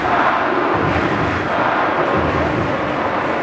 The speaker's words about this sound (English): The ground is in the upscale Água Branca area of the city and was opened in 2014. It holds 43,000 fans who generate an impressive amount of noise.